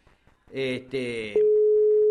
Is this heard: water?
no